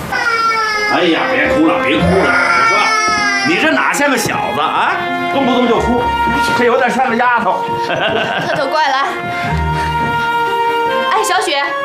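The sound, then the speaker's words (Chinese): A newborn baby boy cries loudly in sustained, wavering wails that rise and fall in pitch and barely pause, with adult voices around. “哎呀，别哭了，别哭了， 你说，你这哪像个小子啊？动不动就哭”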